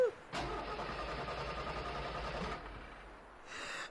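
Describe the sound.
A car engine cranks without catching, giving a steady churning whir that runs for about two seconds and then cuts off, leaving near quiet.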